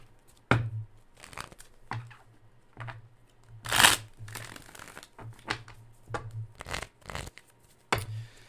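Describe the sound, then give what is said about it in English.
Tarot cards being shuffled and pulled, heard as many brisk papery riffles and soft slaps, spaced irregularly over a low hum, with no talk. “But let me see what I've got here for you. Let's pull some cards.”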